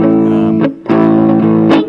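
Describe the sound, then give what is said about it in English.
Distorted electric guitar through an amp set to a cigar box emulation voice, gritty and narrow in range; a couple of sustained chords ring out, each followed by brief scratchy pick noise. “there's a little cigar box emulation for you. Sort of Gladier distortion.”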